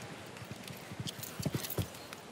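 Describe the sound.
Horse hooves strike the ground at a show jumping event, with many soft, muffled thuds in a loose rhythm over a steady background hiss.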